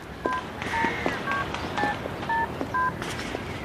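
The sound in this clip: Touch-tone keypad beeps as someone dials a telephone to call a person, with six dual-pitched tones pressed at an even pace over a steady noisy background.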